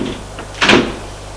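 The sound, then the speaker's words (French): A door being shut, heard as a single brief, muffled thud over a quiet, steady background. “Elle ferme la porte.”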